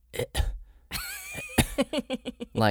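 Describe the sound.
A person imitates a cat hacking up a hairball, making a rapid series of rough, throaty coughing and gagging sounds in short bursts.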